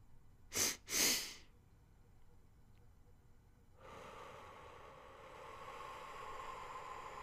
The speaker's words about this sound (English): So it's two short, deep breaths through your nose, followed by one long exhale. And we'll do this together three times.